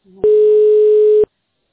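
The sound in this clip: A telephone ringback tone while waiting for a call to connect: one loud, steady, mid-pitched beep holds for about a second and then cuts off, after a fainter low tone at the start.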